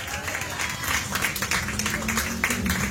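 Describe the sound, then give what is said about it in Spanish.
A church audience claps as an offering to the Lord, giving brisk, full applause from many hands with uneven surges. Talk continues underneath the clapping. “Dale una ofrenda de palmas al Señor.”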